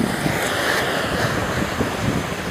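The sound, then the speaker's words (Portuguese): Ocean waves wash against the shore as the tide rises, a steady, moderately loud rush of surf with wind buffeting the microphone and no talk. “Já dá pra escutar, né? Tô bem pertinho da água.”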